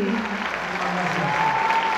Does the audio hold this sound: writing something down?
no